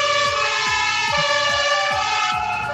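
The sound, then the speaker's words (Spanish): Fire engine sirens wail from several fire brigade trucks at a ceremonial honors formation in Temuco. The loud, dense, layered tone holds steady high pitches, with repeated falling sweeps underneath throughout. “Cuando comienza el ulular de las sirenas,”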